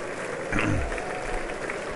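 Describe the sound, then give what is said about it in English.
An audience applauding as a speaker walks up to the dais at a formal political gathering, with steady, moderately loud clapping that continues evenly throughout. “Clapping, clapping.”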